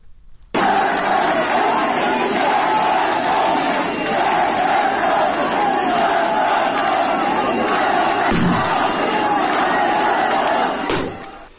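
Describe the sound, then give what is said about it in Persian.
At the funeral of a 10-year-old child killed by gunfire in Izeh, Iran, a large crowd chants anti-government and Bakhtiari slogans. The massed voices roar loud and sustained, almost unbroken from start to end. “مردم شعار بختیاری رسم نماز نداره، مرگ بر خامنه ای و شعارهای دیگه ضد حکومتی سر میدن که صدای ایزه رو میشنویم.”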